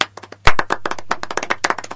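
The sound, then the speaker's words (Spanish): Applause from a group of people: a loud burst of clapping at the start, then many rapid, sharp claps in a dense, uneven rhythm. “Las dije todas hoy, dejen de aplaudir.”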